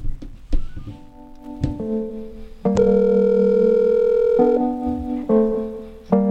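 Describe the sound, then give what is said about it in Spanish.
Telephone line tones sound after a dropped call during a phone-in: a few sharp clicks at first, then steady electronic tones that change pitch several times, ending with another click. “Se cortó la llamada, ahí intentamos comunicarnos de vuelta.”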